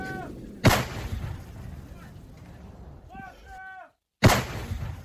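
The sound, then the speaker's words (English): Ukrainian artillery fires at nearby Russian positions during the war around Kupiansk. Two loud blasts, one near the start and one near the end, each hit with a sharp crack and then rumble away over steady background noise. “Ukrainian artillery firing at nearby Russian positions.”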